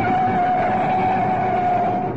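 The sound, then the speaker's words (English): Car engine drones during a fast chase down a city road, a loud, unbroken roar with a sustained high whine running steadily through it, with no change in pitch and no voices. “Nice driving. Now you've got a clear run down Oxford Road. Step on it.”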